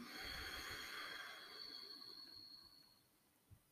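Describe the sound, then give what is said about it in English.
A deep exhale released after a held breath during a guided breathing exercise: one long, soft, airy rush of breath that slowly fades over about three seconds, with a small puff of air near the end. “Make this one your biggest inhale yet. Hold. Exhale with me.”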